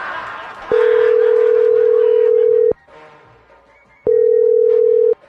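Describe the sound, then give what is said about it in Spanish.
Telephone tones from a call being dialed during a prank call: two long, steady, mid-pitched tones, the first about two seconds and the second about one second, separated by a pause over a faint noisy background. “Ahí están marcando.”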